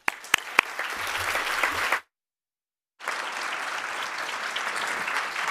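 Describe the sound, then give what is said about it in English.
Audience applause welcomes speakers at a City Club of Cleveland library program: dense, steady clapping that breaks off into about a second of silence, then resumes just as thick. “Members and friends, guests as well, of the City Club of Cleveland, please join me in welcoming today's speakers.”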